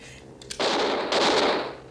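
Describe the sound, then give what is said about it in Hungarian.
Two gunshots are fired into the back of a seat, each a loud, harsh blast with a noisy tail, the second following about half a second after the first. “Ha volna szíves, doktor, két lövést az üléstámlámba. Hogy nyoma legyen a fegyveres erőszaknak.”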